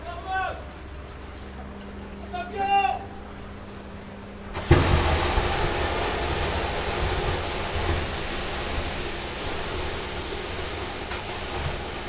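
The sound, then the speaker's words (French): Water keeps running from an open valve in a sewer. A few words of talk give way to a sudden, loud, steady rushing roar that continues without a break. “Ça coule encore, là, ferme la valve de l'eau.”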